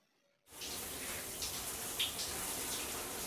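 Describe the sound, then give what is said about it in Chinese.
Shower water begins running after a short near-silence and becomes a steady, even hiss of spray. The sound continues at a constant level with a few faint splashes to the end, and no voices are heard. “我们先去洗澡吧”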